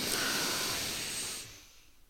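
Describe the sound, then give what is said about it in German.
One long breath drawn in through the nose during a calming breathing exercise for a panic attack, a steady airy hiss lasting about a second and a half before it tapers off. “Durch die Nase einatmen und bis 4 zählen.”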